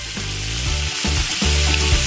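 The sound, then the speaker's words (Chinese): Pork belly stir-fries in very hot, smoking oil, giving a loud, continuous crackling sizzle that stays steady throughout, with no talk. “这样才能把五花肉的油煸出来，会更香。”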